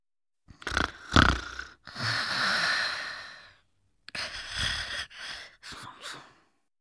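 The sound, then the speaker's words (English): Loud snoring with rasping, throaty breaths: a snorting start, then long drawn inhales and exhales over a couple of cycles, ending in short sputtering breaths before it fades. “Snore.”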